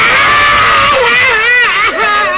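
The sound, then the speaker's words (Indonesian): A performer's voice imitates a character crying in a Javanese wayang puppet show, a loud, sustained, high wailing cry that wavers up and down. “Nangis meneh.”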